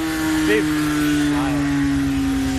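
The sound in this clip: A motorcycle engine runs with a steady, low droning hum whose pitch drifts slowly downward, holding even loudness throughout, with a couple of brief faint voice fragments over it.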